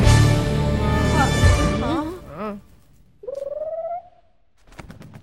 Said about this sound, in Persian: پرنده بیش نبود.